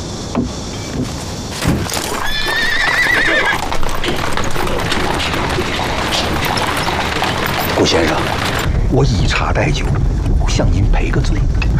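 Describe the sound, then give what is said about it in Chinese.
Hooves of a horse pulling a rented horse-drawn carriage clop steadily throughout, and the horse neighs once early on. People talk over the scene. “来来来来，您请，给您租的马车，请。”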